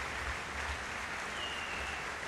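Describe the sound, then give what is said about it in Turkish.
An audience applauds the conductor after a symphony orchestra concert, a soft, steady wash of clapping with no clear break across the stretch. “Alkışlar devam ediyor. Ve tekrar şef kulise yöneldi.”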